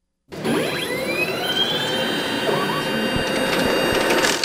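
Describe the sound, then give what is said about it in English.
A DS850 ballot counting machine runs at Milwaukee Central Count, where election workers use it. It starts abruptly and holds a loud, steady mechanical whir, with thin whining tones gliding above the rapid rush of feeding paper. “That's a DS850 ballot counting machine that election workers use at Central Count in Milwaukee. They work just like other machines at the polling place, but they are about 15 times faster.”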